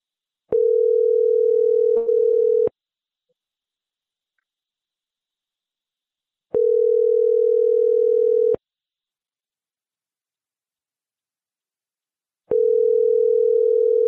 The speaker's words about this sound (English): I got a number to dial here.